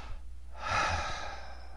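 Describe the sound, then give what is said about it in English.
A single breath drawn in by a man, a soft, airy inhalation that swells gently and then fades, heard alone with no talking. “And perhaps at this point a breath comes to him.”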